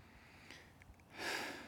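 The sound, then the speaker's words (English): A deep breath, drawn slowly and faintly, rises as a soft hiss after a quiet moment and swells briefly before easing. “I'll just, and you could do this with me, I'll just take a couple deep breaths.”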